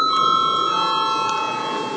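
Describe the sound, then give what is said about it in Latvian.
A voting bell rings in a parliament chamber before a vote, giving a continuous, bright electric ring that holds steady at an even level for the whole clip. “Lūdzu zvanu.”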